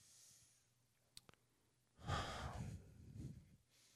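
A single deep breath, heard as a long, soft sigh-like exhale that swells and fades over about a second and a half. It is faint and stands alone, preceded by a couple of tiny clicks.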